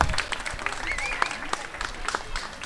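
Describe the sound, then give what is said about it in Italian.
An audience at a live event breaks into hearty applause, dense clapping running all the way through, with voices calling out over it. “Oh, un applausone, bellissimo, meravigliosa.”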